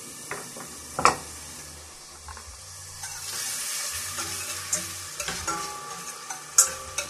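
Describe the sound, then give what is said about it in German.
Bacon sizzling in melted margarine in a pan: a steady crackling hiss builds and holds, broken by a few sharp clicks and scraping stirs. “Du dann die Margarine zerlassen, den Speck da rein.”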